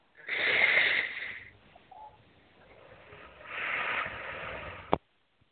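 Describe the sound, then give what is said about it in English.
Slow, deep breathing: two long, airy breath sounds separated by a quieter stretch, soft and breathy with no talking, ending on a brief click. “And take three nice deep breaths.”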